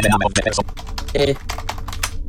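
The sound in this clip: Rapid typing on a computer keyboard gives many quick, uneven key clicks in bursts, with short pauses between runs of keystrokes.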